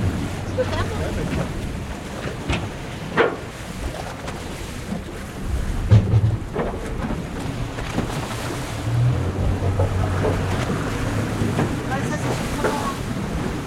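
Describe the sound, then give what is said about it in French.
Harbour ambience aboard a boat moored at the quay on the Île de Sein, off the tip of Brittany: steady wind and lapping water with a low rumble and a few soft knocks against the hull. “Alors là, on est dans le port de l'île de Sein. On est à quai, à bord du bateau.”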